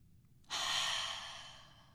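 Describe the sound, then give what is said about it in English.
One breath is taken together during a guided relaxation exercise. The soft, airy rush starts abruptly, then fades slowly, quiet and alone with no talk. “All right, now let's take a breath together.”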